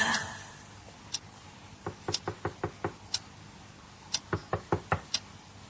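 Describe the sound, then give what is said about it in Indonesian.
Knocking on a house's front door: sharp, faint raps, with a lone knock and then two quick runs of several knocks each, separated by a short pause. “terdengar suara orang yang mengetuk pintu depan rumahku ini.”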